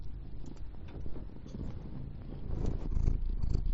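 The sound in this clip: A small cat purrs in a low, rumbling, continuous drone with a soft pulsing texture, gradually growing a little louder toward the end, with no talking over it.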